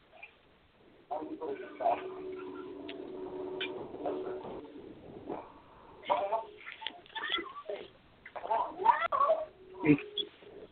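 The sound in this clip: A pet cat yowls and meows several times in drawn-out, wavering cries, interleaved with a person talking to it affectionately.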